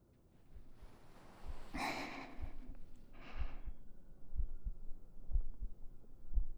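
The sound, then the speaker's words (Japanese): Heartbeat, heard as if listening to someone's heart: soft, deep thumps beat in a steady rhythm about once a second, with a couple of breathy rushes of noise early on. “君の心臓の音が聞こえるね。ドクン、ドクンって優しく響いてる。”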